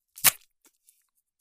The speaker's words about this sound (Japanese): なんかお菓子開封するの YouTuber みたい。よいしょ、キットカット。